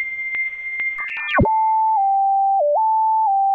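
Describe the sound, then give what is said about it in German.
Basic form of the user-generated station jingle for internet radio Laut FM: a steady high electronic tone with soft clicks, then a quick burst of tones and a steep downward sweep, ending on a sustained lower synth tone with one brief dip. “ist der Jingle für das Internetradio Laut FM. Das Besondere an dem Projekt: weil es ein usergeneriertes Radio ist, haben die Audiodesigner auch eine usergenerierte Station-ID entworfen. Die Grundform hört sich so an.”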